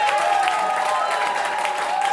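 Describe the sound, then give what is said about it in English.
An audience claps and cheers for a comedian taking the stage at a comedy awards show. The applause is a dense, steady wash that holds at an even, fairly loud level throughout. “We're going to welcome them to the stage, the fourth act of the MCAs. After three, 1, 2, 3. Give it up for Loud MacLeod.”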